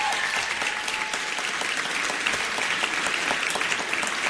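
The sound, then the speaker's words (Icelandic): An audience applauds at a band competition with dense, continuous clapping that stays loud and even throughout, with no distinct pauses. “Gefum henni gott klapp”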